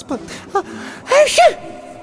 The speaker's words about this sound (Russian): Она кивнула, всклипнула как-то по-детски и снова чихнула.